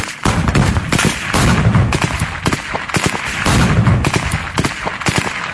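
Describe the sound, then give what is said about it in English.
Gunfire from militant training manoeuvres in mock villages in Gaza: many loud, sharp shots in rapid, irregular bursts with hardly a pause throughout. “This is the sound of the manoeuvres carried out at sites across Gaza, where mock villages had been set up, complete even with a fake tank. Gunmen practiced disabling tanks,”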